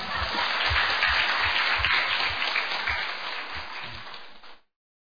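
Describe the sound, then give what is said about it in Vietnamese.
Applause from a group at a Catholic Bible study session: a dense, steady wash of many hands clapping that holds for about four and a half seconds and then stops abruptly. “thì phải tự vỗ tay mà khen mình.”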